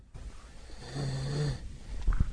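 A man snoring in his sleep: one drawn-out, rasping inhaled snore with a low buzzing tone, followed by a few brief knocks near the end, with no talking.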